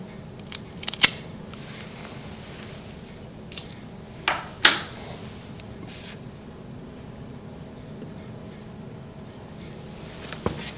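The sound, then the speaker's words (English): Cigar cutter clipping a Rocky Patel Conviction cigar: a few sharp, crisp snips and clicks spaced irregularly over a faint, steady background hiss. “And let me just get my cutter, and we'll clip it and see how the draw is.”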